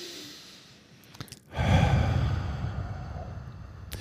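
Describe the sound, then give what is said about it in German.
A deep breath drawn in with hands brought to the chest during a guided relaxation exercise: a couple of faint brief breathy sounds, then a long, loud airy rush that holds steady for over two seconds with no talk. “führst sie an deine Brust, nimmst mal einen tiefen Atemzug.”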